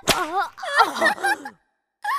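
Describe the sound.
A hand slapping buttocks: one sharp, loud smack at the start, followed by a voice speaking.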